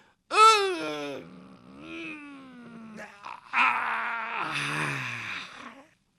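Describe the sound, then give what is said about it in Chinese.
A human voice imitates a waking person stretching and yawning, with long, drawn-out moaning groans that slide in pitch. There are two vocal phrases, split by a short break. “听见伸了个懒腰，打了个哈欠”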